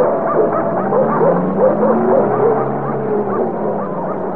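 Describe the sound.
Many dogs bark, yip and whimper together in a continuous, overlapping chorus. The yelps and whines hold a fairly steady loudness throughout, with no clear talk.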